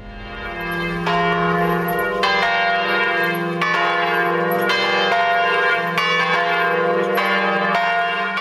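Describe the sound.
Deep ringing of a great bourdon church bell, 518 years old, hung at the top of a bell tower. Loud, rich, overlapping strikes repeat at a slow, steady rhythm, each tone sustaining into the next, with no voices.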